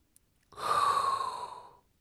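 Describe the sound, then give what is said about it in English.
One long, deep breath drawn in with an airy rush and a faint whistling tone, rising quickly and fading out over about a second, heard alone after a tiny click. “now there's only one thing left to do, and that is inhale a hot breath”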